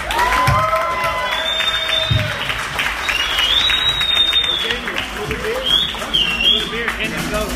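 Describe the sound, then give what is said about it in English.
Audience applause and cheering at a stand-up comedy show: sustained, loud clapping with scattered whoops, and voices mixed in over the noise. “let's give it up to Ian Ellis one more time. Thanks for the noise.”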